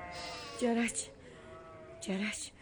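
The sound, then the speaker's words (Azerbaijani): Hungry lambs bleat in a flock, their mothers without milk; two wavering, nasal bleats rise over a low background, about a second and a half apart. “Sürülərindən naləsi quzuların səsindəndir.”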